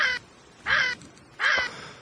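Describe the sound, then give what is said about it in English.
A crow caws three times, harsh and nasal, with evenly spaced calls of similar loudness and short silences between them. “Today's bird call Friday. Do you guys know what that was? Yeah, it's a caw.”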